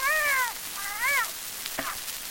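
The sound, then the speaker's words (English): A cat meows while being pulled: two drawn-out, wavering meows, then a shorter, fainter cry. “You'll kill the poor cat. Hold on.”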